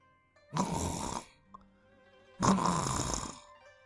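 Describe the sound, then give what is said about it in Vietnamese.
Two soft snores from a sleeping man, each a breathy, rasping draw lasting under a second, separated by a quiet gap of over a second. “Tiếng ngáy khẽ vang lên. Nhìn xuống, hắn đã chìm vào giấc ngủ say rồi.”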